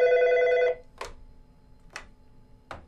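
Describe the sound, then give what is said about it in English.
A telephone rings in a single steady, buzzing burst of under a second. Three short, sharp noises follow, about a second apart, over faint background hiss. “the phone just rang, which was very odd”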